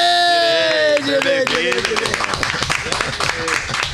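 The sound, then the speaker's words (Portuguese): Audience applause welcoming a former football star as a guest on a Brazilian talk show, a dense patter of clapping that swells after the host's voice and continues beneath ongoing speech. “Vamos receber com muitas palmas ele, o nosso craque”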